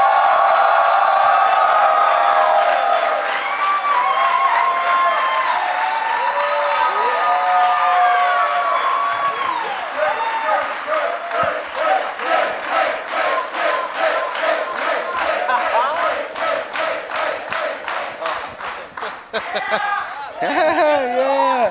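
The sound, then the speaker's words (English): A live audience cheers and whoops exuberantly at a Christmas-themed comedy show with twelve guests on stage. Loud, dense crowd yelling gives way to sustained, rapid applause that carries on to the end. “I begin the show by apologizing to 11 of my guests for the exuberance of the audience in favor of one of you on this stage.”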